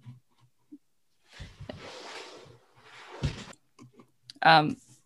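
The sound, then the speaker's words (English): A curtain is drawn, giving two soft rustling, sliding strokes with faint clicks, followed by a short, sharper knock at the end. “I'm conscious of the sun, by the way. I'm not sure if I should draw the curtain.”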